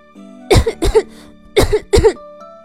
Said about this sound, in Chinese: 一边咳嗽一边说道